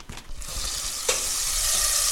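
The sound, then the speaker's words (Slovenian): Butter melting and sizzling in a pot, a steady bright hiss that thickens and grows louder after a brief stir partway through. No voices. “čakam, da se lepo raztopi in raztopljenemu maslu dodam torej nadrobno narezane šampinjone.”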